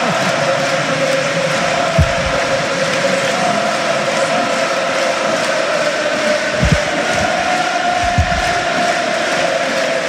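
Supporters at San Mamés stadium fill the air with a steady, dense crowd roar after a strong team performance. The noise stays continuous and even throughout, broken only by a few dull low thumps.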